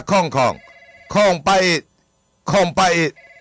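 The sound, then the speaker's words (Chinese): A telephone ringing loudly in a repeating double-ring pattern, three evenly spaced pairs of rings with short silences between them. “啊，电话”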